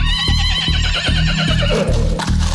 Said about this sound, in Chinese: 马车就走出了北京城，来到了一个偏僻的路口。